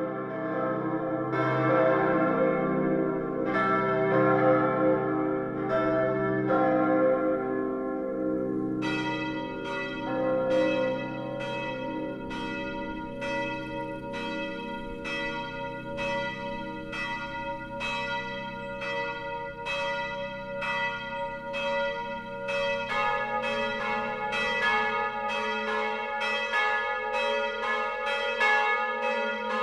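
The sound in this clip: Church bells from the Perner foundry in Passau, tuned to the extended Salve Regina motif, ring in a full peal of many overlapping strokes. More bells join partway through, building a dense, sustained ringing with no voices.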